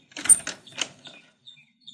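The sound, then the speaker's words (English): A door at a closed store is tried and opened: a few sharp rattling clicks of the handle and latch come close together, followed by fainter scattered light ticks. “I will try this door.”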